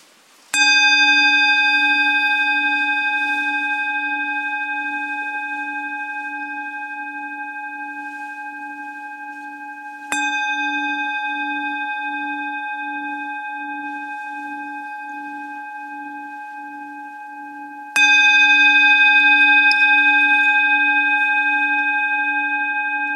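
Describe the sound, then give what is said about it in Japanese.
Three strikes of a bell, spaced several seconds apart, rung while listeners are asked to close their eyes and focus. Each is a bright, clear ringing tone with strong overtones that sustains and fades slowly until the next strike, with no voices. “鐘を3つ鳴らしますので、目を閉じて鐘の音に集中してください。”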